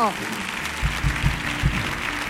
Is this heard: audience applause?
yes